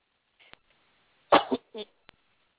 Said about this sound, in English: sorry about that, trying not to cough in your ear.